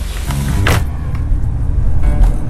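Car sounds: a steady low engine rumble with a short whirring burst early on, then softer bumps and a continuous hum to the end.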